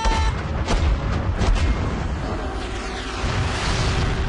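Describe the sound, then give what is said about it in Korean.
Cannons fire during a video game battle, a dense, unbroken rumble of deep booms with several sharper blasts standing out near the start. “적군 출현! 적군 출현! 발사 준비! 발사!”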